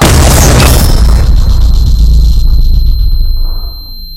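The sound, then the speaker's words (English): A missile explosion sound effect: a loud, heavy boom that starts at full force and rumbles on. A steady high-pitched ringing tone holds through it as the blast slowly fades away after about three and a half seconds. “missile! That ringing sound effect never gets old.”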